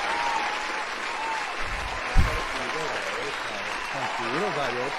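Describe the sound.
Applause from a professional wrestling crowd, a steady, dense wash of clapping that lasts throughout, with a man talking over it toward the end.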